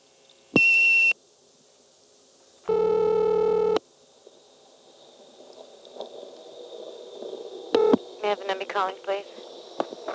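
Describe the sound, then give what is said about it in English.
Telephone line sounds while dialing a digit on an old step-by-step exchange: a short high tone burst, then a longer buzzy tone, followed by faint line noise, a brief click and a jumble of tones near the end. “I'll dial 1 again.”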